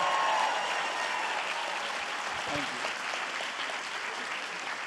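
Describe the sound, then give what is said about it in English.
Steady audience applause for a movie at an event in New York City, continuous dense clapping for the whole stretch with voices mixed in. “Guys, let's give it up for this movie.”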